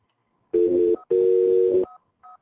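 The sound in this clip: A voice imitating telephone dialing tones, with two long, buzzy, steady hummed notes followed by a few short, higher beeps.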